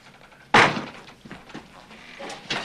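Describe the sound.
A heavy school door slams shut after a chair fails to hold it open: one sharp, loud wooden bang with a quick decay, followed by quieter rustling and a few soft thuds.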